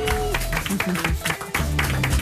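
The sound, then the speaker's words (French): A studio audience claps to welcome guest Virginie Lemoine. Brisk, uneven applause dips briefly near the middle, with voices and tonal music sounding over the clapping. “Merci d'applaudir celle qui va passer une heure et demie avec nous. Merci d'applaudir Virginie Lemoine.”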